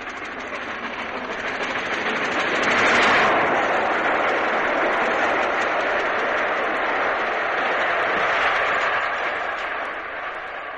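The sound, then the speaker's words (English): The Flying Scotsman steam locomotive passes Goring with its back left-hand steam chest cover coming adrift, giving a continuous loud rushing roar that swells around the third second and again later. “What in fact was happening was that the back left-hand steam chest cover was coming adrift, and here, passing Goring, the sound is perhaps even more pronounced.”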